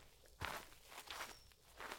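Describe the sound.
Footsteps of someone stepping in through an open door, a few soft, separate steps, faint and alone.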